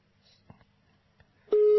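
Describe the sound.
A telephone ringing tone plays while a radio host calls a listener who does not answer. A few faint clicks come first, then a loud, steady tone cuts in near the end and keeps going.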